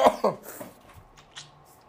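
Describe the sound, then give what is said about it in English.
A person's hard coughing: a couple of sharp, loud bursts at the start, followed by a few fainter, scattered sounds. “I wish I didn't cough as hard as I do”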